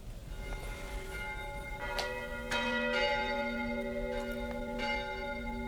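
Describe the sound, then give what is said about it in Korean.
Cathedral church bells ringing: several clangs strike over sustained, humming tones that overlap and linger at an even, moderate level. “이 명동 성당에서 들려오는 것처럼 마음 저 밑바닥에서부터 아득한 종소리가 들려.”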